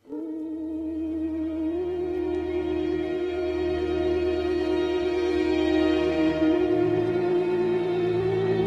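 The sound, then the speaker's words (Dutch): A theremin plays eerie horror-film tones: a sustained, singing tone with wide vibrato that glides slowly in pitch above a low, steady accompaniment, loud and continuous. “dat is de theremin, dat geluid dat je hoort daar.”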